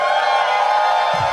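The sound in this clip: Bar audience at the Highball, attached to the Alamo Drafthouse in Austin, Texas, during Fantastic Fest, cheers and whoops at a mention of Texas: a dense, steady wash of many voices held at a constant loud level throughout.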